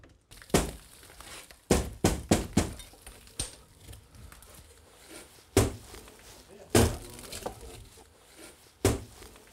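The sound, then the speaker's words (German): Old windows are broken out of masonry walls, producing irregular heavy thuds and sharp knocks, some in quick clusters and others spaced apart, over a quieter background. “Heute ist der spannende Tag. Heute sollen die Fenster ausgebaut werden. Jetzt wird sich zeigen, ob die Mauern halten.”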